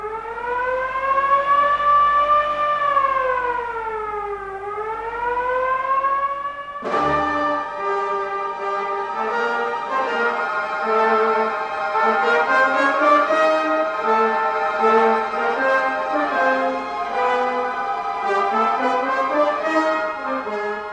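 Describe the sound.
A hand-cranked alarm siren wails loud and unbroken, its pitch sagging and climbing again as the crank slows and speeds, then holding a steady, rich, wavering howl to the end.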